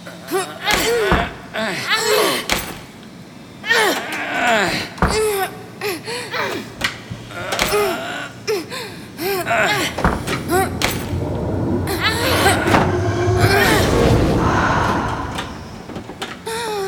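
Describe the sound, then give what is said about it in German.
A door is forced open with many heavy thumps, bangs and slams in irregular bursts, loud and boomy. Voices and a gasp are heard among the blows, and a denser rumbling noise follows toward the end. “Los, wir müssen sie da rausholen. Helft mir, die Tür aufzubrechen.”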